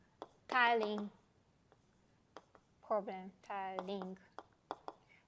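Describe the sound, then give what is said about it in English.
Writing by hand during a mathematics lecture, faint scratchy taps and clicks of a pen or marker between stretches of a lecturer talking. “So we can actually replace, maybe I'll write it here.”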